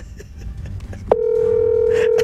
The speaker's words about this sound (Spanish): Arranco a llamar al primero.